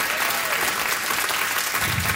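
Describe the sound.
Audience applause welcoming a participant who has just given his name. Brief, steady, fairly loud clapping lasts about two seconds.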